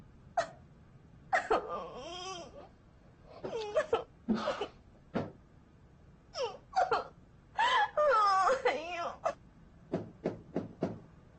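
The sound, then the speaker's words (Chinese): A woman sobs in short, hiccuping bursts, her voice breaking into wavering, uneven cries separated by brief gasping pauses; the bursts come many times and vary from faint whimpers to louder wails. “你能不能先不哭了？”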